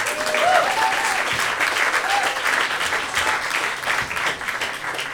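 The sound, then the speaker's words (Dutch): Applause from an audience at a presentation evening: many hands clapping in a full, steady roar that stays strong throughout and eases only slightly toward the end. “Ja, applaus voor Nilefa.”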